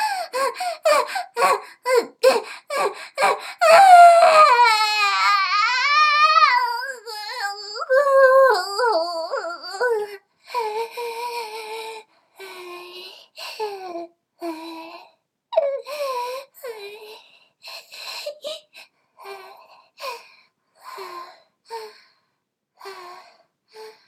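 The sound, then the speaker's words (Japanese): A person crying and sobbing, with loud, wavering high-pitched wails and shaky breaths that break into many shorter, choked sobbing bursts. “泣くの、なんで”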